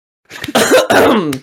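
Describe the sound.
Loud, raspy throat clearing, part voiced, made of a few harsh bursts that run together into a brief rough rumble, alone with no talk.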